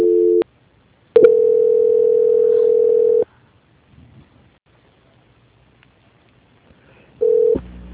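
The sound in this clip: Telephone call-transfer tones: a steady, hum-like electronic tone sounds in separate bursts, first short, then a long stretch of about two seconds, then another short burst, with near silence between them.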